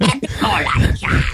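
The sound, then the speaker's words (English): A human voice imitates a golem coughing up a hairball: a brief, loud, guttural growl with a gravelly, retching rasp that runs almost without a break. “more like that, more like a golem coughing up a hairball.”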